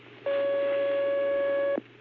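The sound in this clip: A telephone line tone as a phone call is connected: a single steady, mid-pitched tone of about one and a half seconds, heard alone over a faint low hum.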